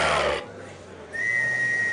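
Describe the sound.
A referee's whistle starts a rat-killing contest. A single steady, high-pitched blast begins partway through and is held to the end after a stretch of duller background noise.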